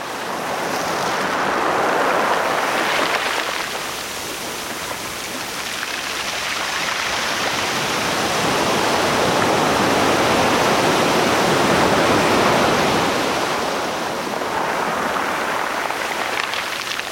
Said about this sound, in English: Kim Wilson recorded these California surf sounds. And if you can't get to the beach today, well, maybe this will help keep you cool.